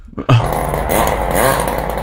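A vehicle engine revving near a petrol station: a rough, buzzing roar that starts abruptly and holds loud and steady, its tone swelling briefly partway through.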